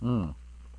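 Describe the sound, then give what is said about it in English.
A single short, low, voiced burp after drinking apple ginger cider, lasting about a third of a second, fairly loud and throaty, then fading into quiet background hum. “That was an okay burp.”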